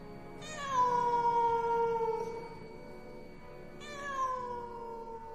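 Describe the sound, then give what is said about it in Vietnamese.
A cat wails mournfully late at night with its fur bristling: two long, drawn-out, tonal cries, each sliding downward in pitch. A pause separates them, and there are no voices. “con mèo vẫn ngồi đó, như là một người vệ sĩ canh gác cho tôi. Chỉ là thỉnh thoảng, nó đứng chồm hẳn lên, lông bẩm dựng cả lên mà kêu lên những tiếng nghe thảm não.”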